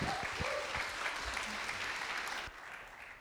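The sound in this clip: A church audience applauds to welcome speakers before an Advent sermon: steady, fairly faint clapping from many hands that drops off sharply after about two and a half seconds into quieter scattered claps.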